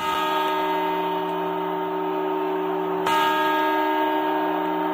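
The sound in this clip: Church bells chime at midnight on New Year's Eve, with long, sustained ringing tones layered together and a fresh strike partway through that renews the ringing. No voices are heard.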